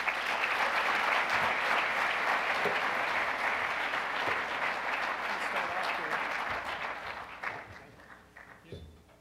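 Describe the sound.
Audience applause at a Detroit Economic Club event welcoming speakers to the stage: sustained, dense clapping that gradually thins and fades out over the final seconds.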